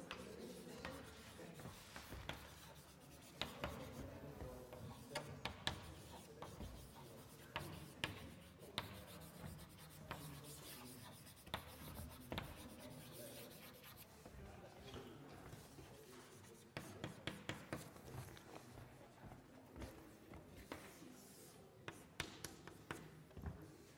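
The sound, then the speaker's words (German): Pen writing out the result of a calculation: faint, continuous scratchy strokes broken by light taps and clicks, running steadily throughout with no clear speech. “Das rechne ich aber nicht vor. Ich schreibe nur hin, was als Ergebnis rauskommt.”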